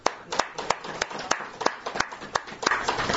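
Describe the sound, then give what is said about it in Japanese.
Applause from an audience celebrating a woman's 25th birthday: many crisp hand claps in an uneven, steady stream, moderately loud throughout. “山崎由香さんが25歳を迎えられましたので盛大な拍手でお祝いをしてあげて”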